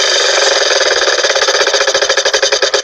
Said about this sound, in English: let's spin the big wheel of languages and find out where it lands.